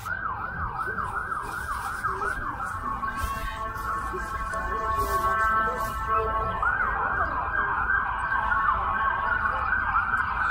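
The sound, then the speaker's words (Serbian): Emergency vehicle sirens wail in a city street on Fifth Avenue, repeatedly sweeping up and down over a constant traffic rumble. They hold steadier tones for a while before the wailing returns. “da nema tih odvratnih sirena”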